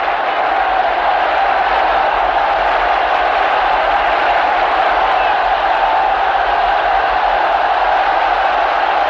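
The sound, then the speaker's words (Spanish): A crowd of churchgoers in a 1968 Cold War religious drama raises a continuous roar of cheering and clamor for a newly chosen pope, loud and unbroken throughout. “Un aplauso nace entre los feligreses que pronto se convierte en un clamor.”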